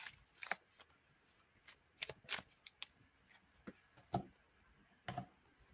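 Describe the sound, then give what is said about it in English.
Soft clicks and riffles of a tarot card deck being cut, a beginner's Rider-Waite-style deck, come as a few quiet, irregular taps and short flutters separated by near silence. “Okay, just cutting the card deck now.”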